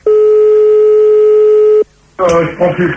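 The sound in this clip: A telephone line tone while calling someone back, a steady loud continuous tone holding for almost two seconds, then cutting off into a short silence before a voice begins talking.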